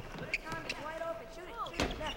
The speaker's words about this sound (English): She grins shyly at a group of teenage boys playing basketball.